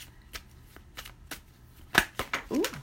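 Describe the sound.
A deck of affirmation cards being shuffled until one pops out: a run of soft riffling flicks and taps that grow louder and denser toward the end.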